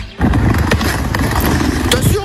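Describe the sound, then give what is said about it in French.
Roller skates roll and glide behind the Costières stadium in Nîmes, making a continuous gritty rumble of wheels on pavement that holds steady after a brief start. “Attention, j'ai pris de la vitesse. Pied droit, pied gauche. Eh ben oui, et je glisse et je saute comme sur des roulettes.”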